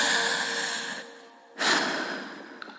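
Deep breaths are drawn in alone. A long, airy breath fades out over about a second, and after a short pause a second strong breath follows and tails off.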